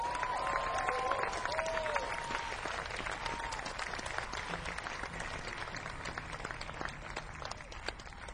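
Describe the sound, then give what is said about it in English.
Audience applause for a guitarist and singer at a live show, a sustained wash of dense clapping that stays fairly even and soft, slowly easing off toward the end. “Playing the guitar and singing for you tonight, please give a big hand for Jed Hughes.”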